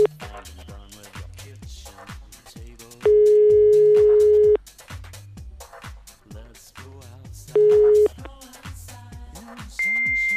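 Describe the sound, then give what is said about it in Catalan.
Telephone call answered by a fax machine: steady electronic tones, first a long low one, then a shorter one, and finally a higher, shrill tone, with voices talking throughout. “Brutal. Un fax. Intentem una altra trucada.”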